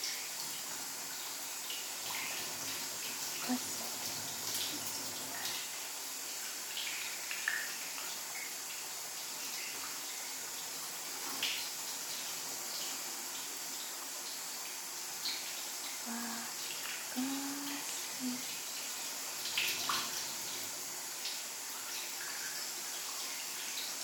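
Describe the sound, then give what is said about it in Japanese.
Running water rinses someone's hair gently, a soft, steady wash of flowing water with small splashes and trickles that continues evenly throughout. “旦那様の髪の毛を優しく溶かすように洗い流してっと。”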